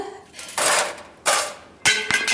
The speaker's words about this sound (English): This is a turning machine. It turns the metal.